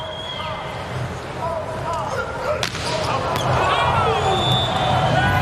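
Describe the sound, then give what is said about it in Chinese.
A US team volleyball serve scores an ace, the ball landing just on the court line. Two sharp impacts cut through steady crowd noise, with commentary voices underneath. “球在界内，美国队发球直接得分，这球应该是压到了一点线。”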